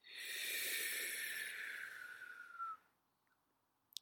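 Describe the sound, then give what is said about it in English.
A breath is drawn in through the mouth over a rolled tongue, making a soft airy hiss. Its whistling tone slides steadily downward for almost three seconds, then cuts off into near silence, with no talk. “The tongue is rolled. Inhale through the mouth.”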